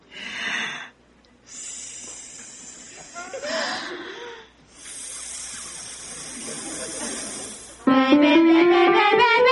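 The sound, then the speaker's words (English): Breath let out slowly through the teeth as a hissing vocal warm-up, like air leaking from a tire: a few long, steady hisses, then a voice breaks into loud singing. “First, got to take a big breath, and then you let it out slowly through your teeth, like air leaking from a tire.”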